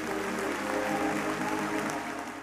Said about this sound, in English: Would you give the Lord a hand clap of praise?